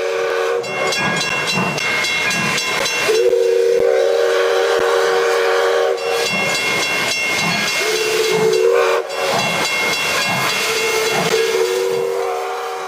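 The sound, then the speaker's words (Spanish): Steam train whistle sounds in a few loud, sustained blasts over constant hissing steam and a steady rhythmic chugging, with no voices. “Se invita a los viajeros a subir al tren y ubicarse en los asientos.”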